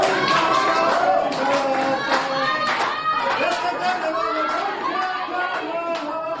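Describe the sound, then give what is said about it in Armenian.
Clapping in a courtroom as relatives and supporters greet the defendants, with scattered claps mixed into loud crowd chatter and many overlapping voices throughout. “դատարանի դահլիճում գտնվող Սասնաց Ռերի հարազատներն ու աջակիցները ծափերով դիմավորեցին մեղադրյալներին։”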